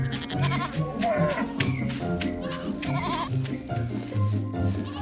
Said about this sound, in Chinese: 小羊，小羊，你陪我玩好不好？